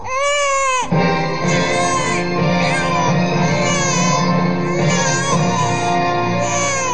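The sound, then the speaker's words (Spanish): A newborn baby cries just after birth: a loud, high-pitched wail with a wavering pitch that continues almost without pause for several seconds after a brief opening cry. “el niño logró salir del vientre de su madre y de pronto, y por su cuenta, respiró, estornudó y lloró.”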